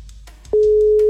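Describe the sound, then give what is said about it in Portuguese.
A ringback tone on an outgoing telephone call begins: after a faint, near-quiet stretch, one steady mid-pitched tone starts about halfway through and holds loud and unbroken to the end. “Primeiro toque, Valéria.”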